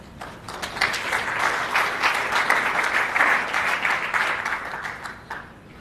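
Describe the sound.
Audience applause welcoming a speaker to a talk on risk in index-tracking investments: dense, steady clapping from many hands for about five seconds, tapering off at the end.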